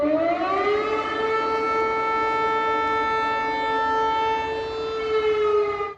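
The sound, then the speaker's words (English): Air raid sirens sound in Poland as a single loud, sustained wail that rises at the start and then holds a steady pitch, alone with no talk, cutting off sharply at the end. “air raid sirens sounded after a Russian missile strayed from Ukraine and entered Polish airspace.”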